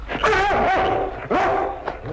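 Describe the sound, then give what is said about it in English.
A dog barks loudly in a few drawn-out, whining bursts with a tonal, yelping quality, each rising and bending in pitch. “Get this dog away from me.”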